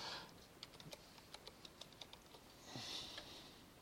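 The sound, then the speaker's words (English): Faint typing of a web search on a computer keyboard, an irregular run of soft clicks with a brief rustle near the end. “I'm going to type in best ETF.”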